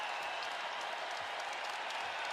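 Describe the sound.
A basketball crowd at the Kohl Center cheers during a Wisconsin home game, a faint, steady roar of voices and clapping with no break.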